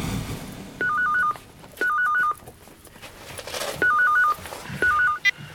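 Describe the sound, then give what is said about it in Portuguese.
Electronic telephone ringing for an incoming call: four short warbling bursts, each trilling quickly between two pitches, separated by brief pauses over a low background. “quando recebi um telefonema do Etienne”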